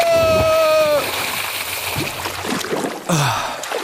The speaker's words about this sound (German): Arschbombe!